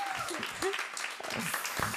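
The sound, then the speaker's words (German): Audience applause at a live comedy show: a dense, steady patter of clapping that stays fairly faint throughout, with a voice and cheers mixed in. “Einen großen Applaus für Ben”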